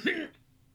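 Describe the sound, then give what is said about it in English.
Someone clears their throat with one short, harsh, cough-like burst, then goes quiet. “as soon as I unpause, I immediately start fucking choking on my throat here”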